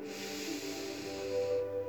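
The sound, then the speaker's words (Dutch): A long, deep inhale during a guided breathing exercise: a steady, soft airy hiss over a faint low hum that fades out near the end. “En nog een keer. Diep inademen.”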